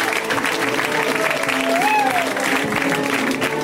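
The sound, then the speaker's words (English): An audience applauds and cheers as a comedian is introduced at a comedy show, a dense, steady wash of clapping with voices mixed in throughout. “Guys, give it up for Jake!”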